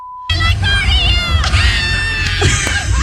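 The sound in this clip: Shrill fan screaming at a concert at the iHeartRadio festival: a short steady beep gives way to a loud, high-pitched wall of screaming voices that wavers and holds to the end.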